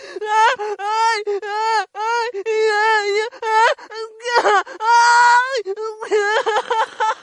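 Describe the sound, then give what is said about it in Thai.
Women in an all-female gym wail and sob loudly in high, drawn-out cries that come in repeated bursts with short breaks, stretching into sustained moans. “เปล่งเสียงหรือหวีดร้องออกมาดังๆจนถึงขั้นนั่งร้องห่มร้องไห้เป็นเผาเต่าในห้องออกกำลังกายที่สมาชิกในนั้นล้วนเป็นผู้หญิงครับ”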